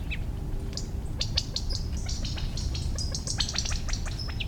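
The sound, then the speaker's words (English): Quail parents in a covey call after their half-grown chicks moving through a buckeye: many short, high chirps and tweets come in quick, irregular bursts over a steady low background rumble. “Covey of quail with chicks.”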